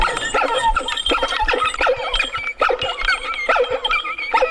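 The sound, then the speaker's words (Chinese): A person imitating a dog barking: a lively, rapid run of many yips, barks and whining whimpers, loud and convincingly dog-like, with uneven rhythm and no other voices. “这狗叫 真像。”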